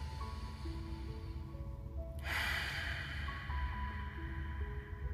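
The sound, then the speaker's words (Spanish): One deep breath drawn in and let out during a guided breathing relaxation exercise, a sudden breathy rush that fades slowly over soft, sustained tones. “Y ahora vamos a inhalar y exhalar la última vez juntos.”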